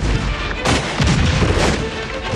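Loud gunfire breaks out after an order to fire during a battle against fleeing enemies. Dense, overlapping bursts and booms roll on without a break, with no clear gaps between shots.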